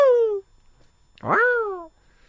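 A cat meows twice, each a clear, drawn-out tonal cry. The first slides downward and the second rises and then falls, with a short quiet gap between them.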